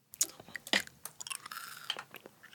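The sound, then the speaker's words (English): Chewing a Skittles candy: crunchy, crackling bites up front, then a run of quieter, wetter chewing pulses that continue irregularly to the end. “Can I eat a Skittle? Yeah. Eat a Skittle.”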